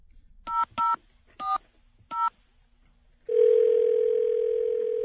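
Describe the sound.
Touch-tone telephone dialing: four short, clear tone bursts, the first two close together, followed by a long, loud steady dial tone that continues to the end.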